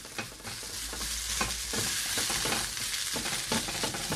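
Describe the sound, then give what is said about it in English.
Patting and breaking up clumps of grain in a frying pan: a steady hiss of sizzling with soft, irregular taps and scrapes of stirring throughout. “You can kind of hear me kind of patting away, pat, pat, pat, breaking up those clumps in the pan. We want every single grain to sing its own song.”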